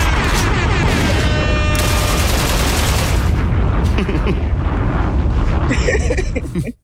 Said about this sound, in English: shooting from the hip. They don't even see the shots.